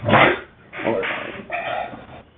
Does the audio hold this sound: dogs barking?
yes